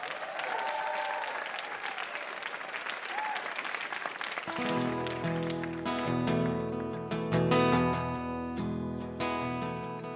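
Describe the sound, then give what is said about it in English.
Audience applause for a game show contestant fills the first four seconds or so as a dense, even patter. It then gives way to music that carries on to the end. “Yes, another hand for Frank Goche for playing it hilarious and fantastic.”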